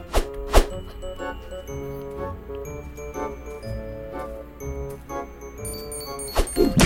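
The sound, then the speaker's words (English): Super punch impacts from an arcade video game land on enemies as a few heavy thuds, loudest near the start and again near the end, over steady game music with bright chiming tones. “Punch. Whoa, I got some type of super punch. Whoa, the enemies die super fast.”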